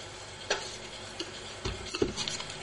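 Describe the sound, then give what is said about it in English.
Slips of paper stirred around in a box give soft, scattered rustles and scraping clicks, a few brief irregular bursts over a faint steady hiss, with no voices. “we'll grab the box and give it a big stir and see who wins.”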